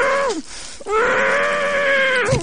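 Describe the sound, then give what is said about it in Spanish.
A man gagged with a cloth gives a muffled scream of pain while cutting off his own thumb. A short falling cry breaks off, then a long, strained, sustained wail is held at steady pitch and ends abruptly. “Paul emite un grito sordo ante el dolor que le está produciendo la amputación de su propio dedo”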